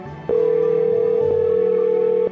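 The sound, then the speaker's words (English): A telephone ringback tone plays as a call is placed: one long, steady, mid-pitched tone lasting about two seconds after a soft click. “let's go ahead and get her on the phone.”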